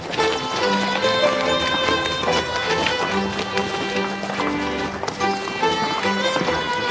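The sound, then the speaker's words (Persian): Horse hooves clip-clop in a quick running rhythm, half buried beneath loud, continuous music with sustained tones that plays throughout. “آقای توکلی اگه سوار اسب میشید من پیاده شم. نه ما پیاده میدیم.”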